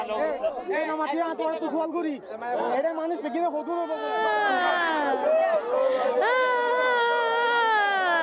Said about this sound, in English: They are desperate. Their hands are outstretched, begging to leave.